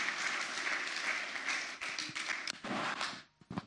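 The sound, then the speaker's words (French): A church audience claps in applause, a full steady burst that breaks up and dies out, leaving a few scattered final claps. “Est-ce qu'on peut acclamer pour cette conviction?”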